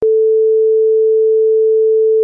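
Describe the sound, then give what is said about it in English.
A single long electronic beep holds one steady mid-pitched tone for about two seconds, loud, unbroken and alone. “Your task is to identify which is longer, the first two beeps combined or the longer beep.”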